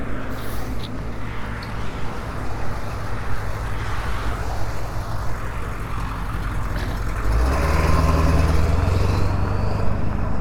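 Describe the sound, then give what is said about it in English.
Steady roar of traffic on a busy road, a broad rushing wash of passing vehicles, with a deeper, louder rumble building in the last few seconds, and no voices. “Going away from the busy road now. I'll stay away from the busy road for a while.”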